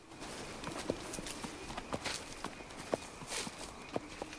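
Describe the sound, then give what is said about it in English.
Footsteps and a mule's hooves tread over fallen leaves in a forest at night, making a loose, uneven series of soft crunching steps with a few sharper thuds mixed in. “Later at night, 2 feet trudge over fallen leaves in the forest. They belong to the boy, who holds a lantern and pulls a mule on a rope behind him.”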